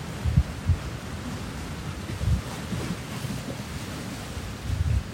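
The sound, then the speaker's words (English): Waves of Lake Superior (Kichigami) rolling ashore, a low churning wash broken by several soft, deep thumps of surging water, with wind buffeting underneath. “Sink into the sound current of this mighty life force, Kichigami.”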